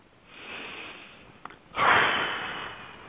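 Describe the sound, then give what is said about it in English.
A deep, collective inhale during a guided meditation session: faint breathing and a small sniff lead into a louder, airy intake of breath that swells and then slowly tapers off. “So now, let's start off by all taking a deep breath”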